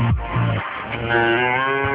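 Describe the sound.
A cow lows in a few deep, drawn-out moos. The last moo is the longest and fullest, a rich, sustained bellow heard alone.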